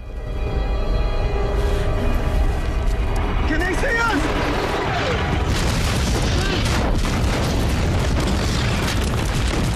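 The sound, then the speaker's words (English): Missile explosions hurl rocks and debris into the air in a dense barrage of heavy booms and rumbling bursts, many overlapping into a continuous loud roar, with voices audible amid the blasts. “Another wave of missiles sends rocks and debris hurtling into the air.”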